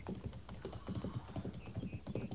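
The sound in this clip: Horse hooves clopping as a rider vaults on from the right side and rides off in a western scene. Quick, irregular beats run throughout at moderate loudness.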